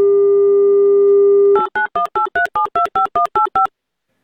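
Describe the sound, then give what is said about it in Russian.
Telephone dial tone as a call is placed: a steady hum lasts about a second and a half, then a quick, evenly spaced run of two-note keypad beeps follows before the line falls silent. “Давайте звонить Ульяне.”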